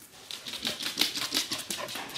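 A dog jumps around, its paws and claws making a quick, irregular run of light taps and scrabbles at a moderate level.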